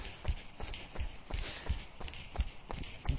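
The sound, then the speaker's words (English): Footsteps of someone jogging easy in Victoria Park, heading toward the Olympic Park: a steady, even rhythm of many soft, dull footfalls, each a short low thud, with no voices. “jog easy. For 10 minutes or so, I'm going to head over from where I am in Victoria Park to the Olympic Park”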